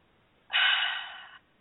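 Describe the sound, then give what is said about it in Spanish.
A single deep breath is drawn, a soft, airy rush lasting just under a second that fades slightly toward its end. It is heard on its own against a quiet background. “Déjame respirar profundo.”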